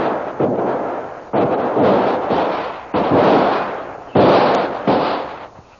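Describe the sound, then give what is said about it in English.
Gunshots exchanged between two shooters in a shootout: several loud, booming reports, each trailing off in a long decay, with no voices. “As Lynn breaks away from her captor, both the savage and Kolo start shooting at each other.”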